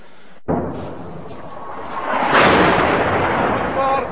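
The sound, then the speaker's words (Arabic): Heavy shelling on a residential neighbourhood: a sudden loud blast gives way to a dense, sustained roaring rumble that swells louder in the middle and stays heavy to the end. “قصف عنيف على الحي”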